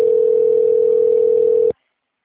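A telephone ringing tone plays while a call waits to be answered. A single steady tone holds for under two seconds and then cuts off abruptly into silence.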